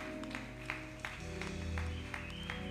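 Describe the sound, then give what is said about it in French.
A church audience claps to acclaim a member's birthday during a Sunday service. The clapping comes in faint, regular beats over sustained music. “Nous l'acclamons, nous l'encourageons.”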